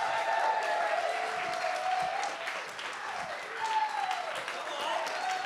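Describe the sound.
A standing church audience at Avant Life Church applauds to welcome a guest preacher. The clapping is dense, loud and continuous for the whole clip, with some voices mixed in.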